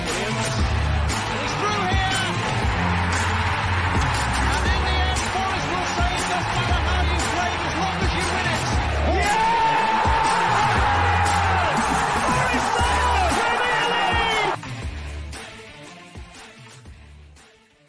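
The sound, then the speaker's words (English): A football crowd at the City Ground roars after a goal for Nottingham Forest against West Ham United. The dense, loud roar holds steady for about fourteen seconds, then drops away sharply toward the end. “Taylor, what he scores! And the city ground goes ballistic!”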